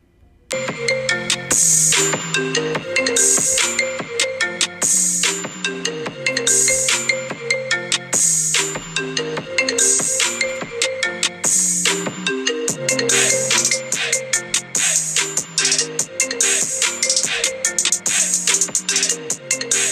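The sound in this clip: Phone ringtone for an incoming caller on a talk show: a loud, bright electronic melody repeats continuously and rhythmically throughout, with no voices.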